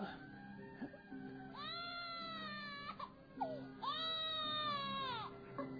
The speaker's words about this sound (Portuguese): Por que essa infeliz criança chora tanto? Eu não aguento mais ouvir esse pobre infeliz.